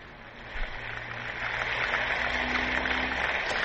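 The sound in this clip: Applause and a standing ovation greet a representative speaking about Ukraine. The clapping blends into a steady, rain-like hiss that swells after the first half second and then holds at an even level.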